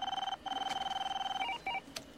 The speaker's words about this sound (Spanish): el teléfono